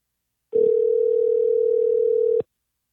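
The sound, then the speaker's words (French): A telephone call is placed, and a single steady electronic tone sounds loud and clean for about two seconds, then cuts off into silence. “Et voilà, on l'appelle.”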